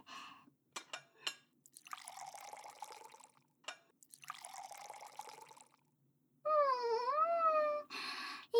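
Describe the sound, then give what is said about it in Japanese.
Hot water is poured into a coffee cup in two splashing pours, preceded by a few small clicks and drips. A wavering, tonal sound follows near the end. “コーヒー、コーヒーと、お湯はもう沸いてますから、あとはカップに入れて、”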